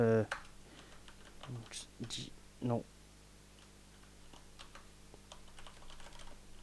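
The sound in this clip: Typing a search on a computer keyboard: light, quick key clicks continue after brief speech at the start and in the first half, then go on quietly alone.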